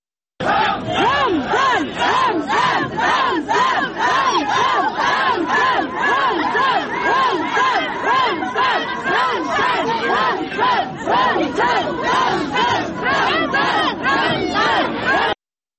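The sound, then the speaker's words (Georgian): A crowd at a rally in central Grozny, Chechnya, chants Allahu Akbar in loud, rhythmic unison, the short repeated phrases pulsing steadily throughout. “გროზნოს ცენტრში შეკრებილი ადამიანები კი ხმამაღლა გახვიდოდნენ ალაჰ აკბარს და ჩეჩნეთის ლიდერის სახელს.”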